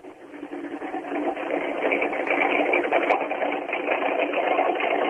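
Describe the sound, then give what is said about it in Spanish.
A Mustang race car engine, just started, runs at a steady idle with no revving. It gives a continuous, rough, buzzing drone that swells slightly in the first second and then holds at an even level. “Primer motor encendido en este momento, a la hora del programa, es el del Mustang de Craparo”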